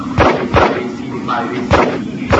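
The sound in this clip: Gunshots from a shooting video game on a target range with many pistols, including a Desert Eagle and silenced guns, heard as a few dull, punchy thumps spaced unevenly across the moment.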